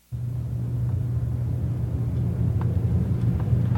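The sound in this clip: Low, steady car rumble with constant engine hum and road noise during a short drive to the office. It stays even and fairly quiet throughout, with a few faint ticks and no voices.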